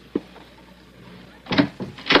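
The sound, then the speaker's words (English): A house door opens: a single sharp click, a pause, then a quick cluster of louder bumps and rattles from the door. “Now, just be quiet a moment, baby. Wait till he opens the door.”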